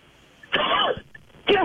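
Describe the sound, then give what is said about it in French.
Coughing and choking as a person splutters mid-sentence: two harsh, raspy bursts of coughing and throat clearing, the first longer and the second short, separated by a brief quiet gap. “Pardon, excusez-moi, je m'étouffe.”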